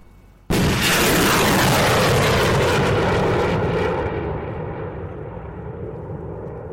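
A rocket fires from a vehicle-mounted launcher and rises into mist: an abrupt, loud blast gives way to a sustained, rushing roar that slowly fades.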